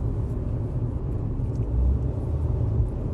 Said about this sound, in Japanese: これ運転しながらハンズフリーで喋ってるんですけど